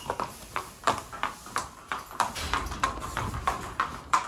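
Racehorse hooves walking during the morning training warm-up give a steady, regular clip-clop of many moderate hoof strikes, each one short and crisp, with no voices over them.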